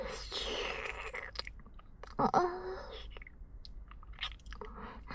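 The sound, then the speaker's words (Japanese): Wet tongue licking and mouth sounds are heard, quiet and close, with a few short moist smacks and one louder sticky burst near the middle. “我慢汁を舐め上げて、私の舌ですくって、”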